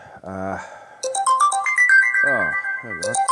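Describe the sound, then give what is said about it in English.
A phone ringtone sounds for an incoming call, a bright electronic melody of quick stepping notes, loud and continuous, while a voice speaks before and during it. “Someone just tried to call. I should turn calls off, or at the very least, turned off the ringtone.”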